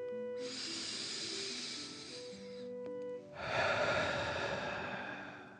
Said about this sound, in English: breathe fire out of your mouth. Again, deep dragon breath in and out.